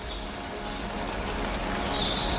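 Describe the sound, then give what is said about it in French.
Raindrops fall among vegetation as a soft, continuous patter and hiss that stays faint and even throughout, with no talking. “les gouttelettes de pluie, des prises de son monophoniques et stéréophoniques.”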